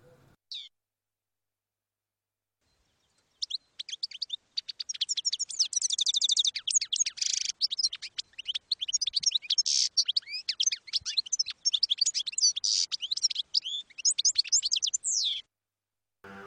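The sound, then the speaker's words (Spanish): A goldfinch sings a long run of rapid, high-pitched twittering chirps and trills that continues without a break for about twelve seconds, with no other sound alongside. “hasta entonces no tenía más compañía que la de su jilguero.”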